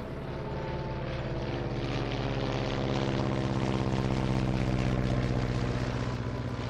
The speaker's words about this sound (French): 6h26, décollage.